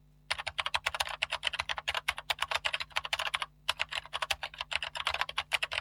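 Someone types a search on a computer keyboard in quick, irregular bursts of crisp clicking keystrokes, breaks off in a brief pause midway, then resumes the rapid tapping.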